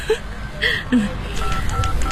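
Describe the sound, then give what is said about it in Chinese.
Keypad beeps from dialing a first-generation Motorola mobile phone, a few short tones in quick succession followed by fainter tones over background noise. “你就用我的手机打好了。啊，有手机，摩托罗拉第一代的手机。”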